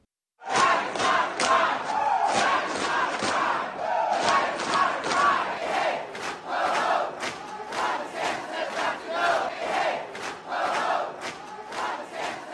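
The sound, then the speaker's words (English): A loud crowd of about 300 drag queens and supporters protests at the Florida Statehouse, massed shouting and chanting rising in repeated rhythmic swells throughout. “That's the sound of an estimated 300 drag queens and their supporters storming the Florida Statehouse on April 24th.”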